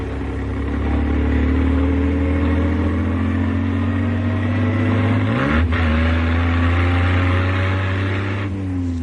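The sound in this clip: A small car's engine accelerates along a smooth road, a loud, steady droning hum throughout, with a brief dip and recovery in engine pitch partway through.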